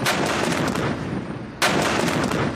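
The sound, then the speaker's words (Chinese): Heavy artillery roar as several guns fire at once with various munitions during a high-altitude, cold-weather military exercise; a loud, continuous rumble with a sharp fresh blast partway through. “首轮打击开始，数门火炮同时开火，各型弹药精准击中目标。”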